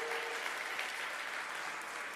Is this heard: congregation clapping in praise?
yes